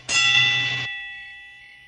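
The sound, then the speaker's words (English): A fire bell rings by itself: a loud, bright metallic burst lasting under a second, then a sustained ringing tone that fades slowly. “A fire bell rings by itself.”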